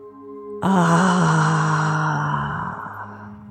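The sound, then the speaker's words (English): A deep breath is blown audibly out of the mouth in a breathing exercise, coming out as a sudden, strong, voiced sighing exhale. It starts abruptly and stays loud before gradually fading away over a few seconds. “take a deep breath in through the nose and blow it audibly out of your mouth.”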